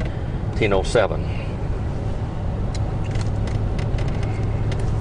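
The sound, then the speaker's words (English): Steady low road rumble from a car driving toward Fish Lake Valley, a continuous engine and tyre drone with a voice speaking briefly near the start. “We're driving down the road. This is going toward Fish Lake Valley now.”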